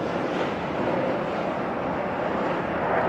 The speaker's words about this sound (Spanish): y que se va a mirar un avión acá. Que es súper cool que haya un avión en esa toma.